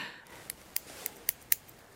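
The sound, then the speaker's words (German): Nail scissors cut a fingernail, making five sharp, quiet snips at a steady pace over faint background hiss. “Also ich schneide jetzt mal einen Fingernagel ab.”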